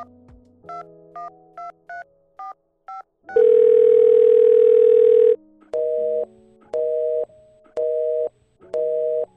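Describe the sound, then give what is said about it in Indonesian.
Telephone call reaching a busy line: a run of short dialing beeps, then one long steady tone, followed by an evenly pulsing on-off busy signal repeating several times. “Akan tetapi, nomor April ternyata sedang sibuk ataupun sedang menerima panggilan lain.”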